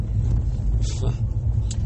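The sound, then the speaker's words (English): An all-wheel drive car travels along a rough road, a steady low rumble with wind noise over the microphone and a few faint bumps. “Wow, this road is not any better. Holy cow. Good thing we're in an all-wheel drive car.”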